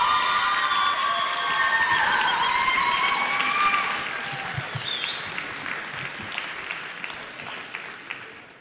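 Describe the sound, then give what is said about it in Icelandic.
An audience applauds a band called Rán at a live music event, with cheers and whistles over loud clapping at first, then the applause thins and fades after about four seconds. “Gefum þeim gott klapp.”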